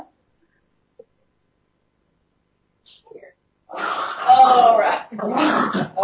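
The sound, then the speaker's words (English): A dog whimpers and growls while being muzzled. After a long near-silence, a sustained stretch of rough growling and whining breaks out, pauses briefly, then resumes. “Hold on a moment, please. Hold, please. I have to muzzle this dog.”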